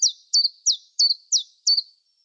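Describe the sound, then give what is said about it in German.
Recorded bird song played in: six high, thin chirps, evenly spaced, each sliding quickly downward in pitch, with silence between them and no other sound. “Dafür spiele ich jetzt mal einen Vogel ein.”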